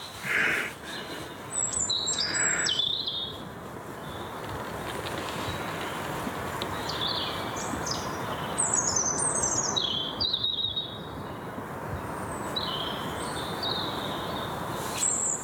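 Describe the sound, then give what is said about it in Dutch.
Blackbird, robin and song thrush singing in woods about an hour before dawn: scattered, faint bright phrases from several birds rise and fade over a low, constant background hum. “Merel, roodborst, zangluister, die vechten om de eer.”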